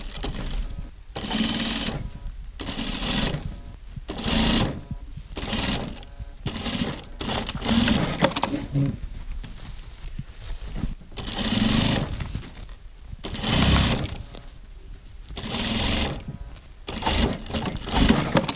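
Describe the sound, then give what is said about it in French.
A sewing machine stitches the top of a made-to-measure wedding outfit to its trousers in many bursts of rapid mechanical whirring, separated by short pauses. “Vous vous installez devant la machine à coudre. Voilà. Et donc, je vais assembler le haut au bas. C'est parti.”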